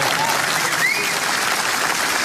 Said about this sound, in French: Bravo, vous pouvez applaudir si vous voulez.